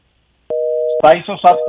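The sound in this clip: A steady telephone line tone follows a dropped call. It starts abruptly and holds one even pitch throughout, while a voice talks over its second half.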